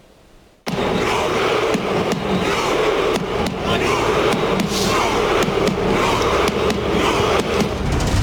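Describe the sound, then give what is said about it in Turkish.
Norwegian football fans celebrate a World Cup win over Senegal with their traditional Viking rowing routine: after a brief quiet start, loud crowd noise bursts in, punctuated by many sharp, repeated thuds and shouts. “2026 FIFA Dünya Kupası'nda Senegal'i 3-2 mağlup ederek son 32 turunu garantileyen Norveç'te galibiyet coşkusu geleneksel Viking küreği gösterisiyle kutlandı.”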